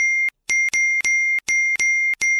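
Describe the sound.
Repeated phone text message notification dings in a rapid string, each bright electronic chime cut off by the next in an insistent, almost continuous chain.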